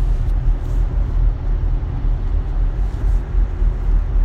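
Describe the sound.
Steady low rumble of a car being driven, heard from inside the cabin; the engine and road noise hold an even, continuous drone throughout, with no talking.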